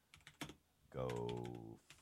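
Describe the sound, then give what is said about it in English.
Computer keyboard typing comes in a few sharp, quick key clicks before and after a short, sustained tonal sound. “Well, I'll actually just type that in here and just see, does it come up actually?”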